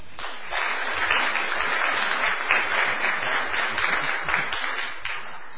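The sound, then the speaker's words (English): Audience applause at a church gathering welcoming a guest speaker, a continuous crackle of many hands clapping for around five seconds, fairly even in level, tapering off at the end. “So let's give a warm welcome to Andrew Vickery.”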